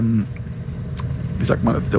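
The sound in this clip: Low, steady engine rumble inside a bus riding at night. A voice talks over the drone throughout.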